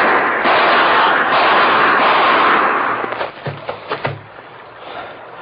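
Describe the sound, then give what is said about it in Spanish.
Gunshots fired in a quick burst of several sharp, loud cracks close together, after a stretch of steady hiss. “¡No! ¡No haga eso! ¡No, no dispare, señor! ¡No!”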